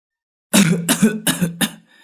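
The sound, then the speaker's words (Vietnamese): An old man coughs four times in quick succession, short rough bursts that are loud and alone, with the last one trailing into a faint breathy tail. “Cụ Quảng đưa tay mở cánh cổng nhỏ, đoạn ho lên khổ khổ.”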